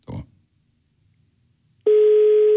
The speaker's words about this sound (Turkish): Aa meşgule verdi.